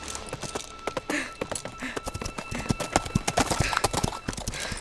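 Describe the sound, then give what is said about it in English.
An old mare's hooves clip-clop along the streets of Manhattan in a brisk, steady rhythm of many sharp knocks, fairly faint and continuous throughout. “As I rode the old mare down the streets of Manhattan, I knew the trouble I was about to cause.”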